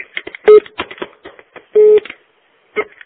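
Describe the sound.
A telephone rings at a medical centre, sounding as a short, a longer and another short mid-pitched electronic tone over scattered clicks and background noise.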